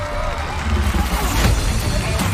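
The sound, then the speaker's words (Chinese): A crowd cheers and applauds for a 78-year-old man's horizontal bar routine, a loud, continuous mix of clapping and raised voices that swells slightly partway through. “漂亮，给爷爷鼓鼓掌。”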